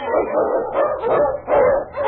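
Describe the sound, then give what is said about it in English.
Barking from an Eskimo sled lead dog: several loud, sharp, yelping barks with whining, whimpering tones, in quick succession with no voices. “The Wonder Dog King, swiftest and strongest of Eskimo lead dogs, blazes the trail through storm and snow for Sergeant Preston as he meets the Challenge of the Yukon”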